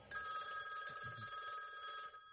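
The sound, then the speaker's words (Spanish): A telephone rings in a house at night in North Yorkshire, England, giving a bright, steady ring that holds for about two seconds and then cuts off. “el teléfono suena en la casa de Lord Armstrong, en el norte de Yorkshire, Inglaterra.”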